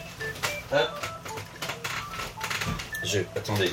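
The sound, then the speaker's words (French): An old telephone rings in repeated bursts of metallic, bell-like tones, moderately loud, with a voice present beneath the ringing. “C'est intéressant, c'est le téléphone ancien qui sonne. Donc je le coupe.”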